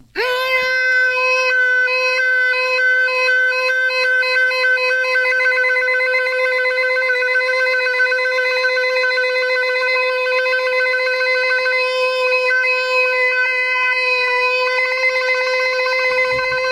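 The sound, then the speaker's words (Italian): A human voice imitates a siren in one long, unbroken, steady high tone with strong overtones, held alone for about seventeen seconds. “È pazzesco. Cioè, una sirena, sembra una follia, sì, ma no, stiamo studiando veramente la voce”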